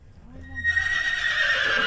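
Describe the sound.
A horse neighs in a barn in North Ridgeville: a single loud whinny that starts low and grows into a long, quavering high-pitched call.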